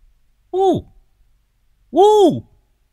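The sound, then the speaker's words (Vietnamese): A voice imitates a car horn with two honks, each a bright vocal tone that arcs up and then falls away. The second honk is longer than the first. “Lão bấm còi pim pip.”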